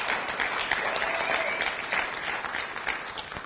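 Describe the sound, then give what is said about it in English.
A church audience applauds the Lord at a worship service with a steady, dense patter of many hands clapping at moderate volume throughout. “Give the Lord a big hand, please.”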